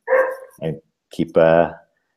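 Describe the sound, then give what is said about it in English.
A puppy barks outside, giving a few loud, high yelping barks and whiny cries in short bursts separated by brief silences. “Please excuse my puppy in the background. He's outside, but apparently he's going to bark a while.”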